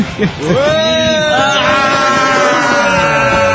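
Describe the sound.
An amusement park ride cart starts moving with a motor hum that climbs briefly and then holds as a steady drone. Voices can be heard under it.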